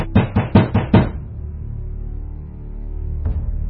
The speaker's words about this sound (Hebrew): ובידו השנייה נקש בחוסר סבלנות.